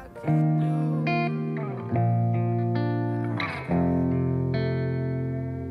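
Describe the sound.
Opening bars of a pop-rock song: three sustained, effects-laden guitar chords swell in at even intervals, each ringing with a bright harmonic shimmer before slowly decaying, with no singing yet.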